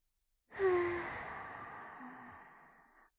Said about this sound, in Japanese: まずは深呼吸から始めるわよ。吸って吸って吸って